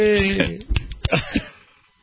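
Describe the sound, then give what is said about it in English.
Finger snaps close to the microphone: a few sharp, dry clicks follow a brief voiced sound, then the room goes quiet. “don't be snapping in the mic, man. I'm not going to applaud. I'm just giving a snap.”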